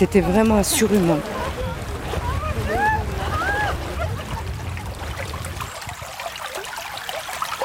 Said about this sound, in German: Er plätschert ungefährlich dahin, der Bach am Treffpunkt in Champs-Secrets